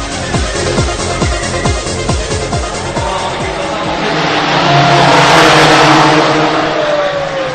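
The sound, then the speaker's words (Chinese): Race cars roar at the 61st Macau Grand Prix. Loud engines climb and drop through repeated gear shifts, then a broad swell of a car speeding past rises and fades. “我现在呢，就是在第六十一届澳门格兰披治大赛车的现场。”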